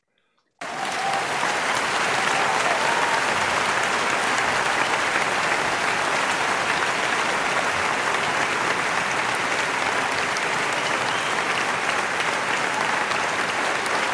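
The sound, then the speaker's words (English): Loud, dense audience applause bursts in after a brief moment of silence and holds steady and sustained without a break to the end. “Insert audience clip here!”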